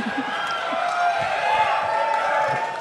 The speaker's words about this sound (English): the crowd's going wild. Are they chanting for the M&M picture?